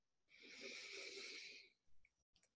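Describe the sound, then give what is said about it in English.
A single long, deep relaxing breath drawn during a calming affirmation exercise, steady and breathy for over a second, followed by a few faint soft breath sounds. “Another nice, deep, letting go breath.”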